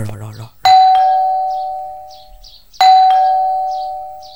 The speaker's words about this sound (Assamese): সৌটো calling বেলৈ বজা বজা।